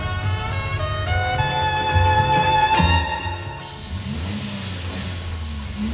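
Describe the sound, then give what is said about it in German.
A car engine left running in a closed garage: a loud, steady harmonic drone for about three seconds drops to a lower, rougher rumble that carries on to the end. No voices are heard. “Und jetzt lässt er den Motor laufen. Das hat er nämlich verlangt, der Entführer. Bei geschlossenem Garagentor den Motor laufen”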